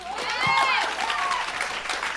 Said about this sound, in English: Just the women clapped.